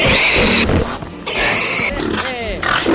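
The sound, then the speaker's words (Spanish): Pigs grunting in a studio, a pet piglet joined by several companions: loud rough grunts and higher squeals overlap in bursts, mixed with people talking. “este año tenemos a Crescent, que es nuestro cerdito, que hoy ha venido acompañado de sus amiguitos.”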